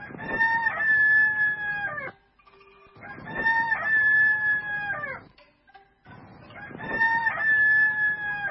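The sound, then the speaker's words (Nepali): Three loud rooster crows, each about two seconds long with brief pauses between, from a rooster figure on a mechanical clock that flaps its wings when switched on. “अचम्म, घडीको माझमा भएको भाले पखेटा फटफटायो र कुखुरी कहाँ भनेर 3 बास्यो।”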